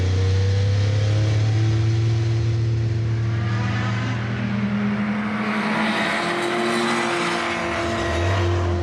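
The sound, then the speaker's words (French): Engine of a 962C race car with a 2.8-litre twin-turbocharged six-cylinder, running on a circuit: a loud, sustained drone with strong layered harmonic tones whose pitch shifts as the engine works, easing briefly midway before building again, with no talk. “962C est équipée d'un moteur 6 cylindres, 2 litres 8, biturbo.”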